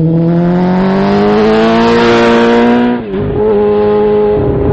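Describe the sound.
A motorcycle engine runs in a repair shop, droning loudly with a steady buzzing tone that creeps slowly upward in pitch. It dips briefly near the middle, then settles back to a constant hum.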